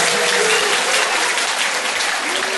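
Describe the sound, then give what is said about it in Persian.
Dense, steady applause from many hands clapping, loud and continuous for the whole stretch with no voices over it. “قشنگ دست بزن”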